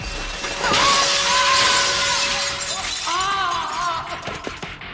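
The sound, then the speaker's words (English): Glass shatters outside a hotel: a sharp breaking crash, then a sustained bright wash of tinkling fragments, with steady tones running underneath. “Broken glass outside the hotel.”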